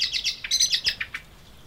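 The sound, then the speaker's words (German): Bird chicks chirp in a garden in a quick series of high, thin tweets. The bursts are bunched together at first, then thin out into a few fainter calls before fading away. “Die ersten Küken sind schon ausgeflogen und hüpfen jetzt hier im Garten rum.”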